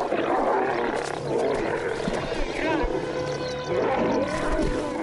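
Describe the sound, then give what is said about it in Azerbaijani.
A lion's deep, rumbling roar swells and sustains under a speaking voice, with a rough, throaty texture that holds steady loudness through the whole stretch. “Həmin səsi 8 kilometr uzaqlıqdan eşidə bilərik. Bu çox böyük məsafədir. Yəni 8 kilometr uzaqlıqdakı şir sizə öz səsini eşitdirə bilər.”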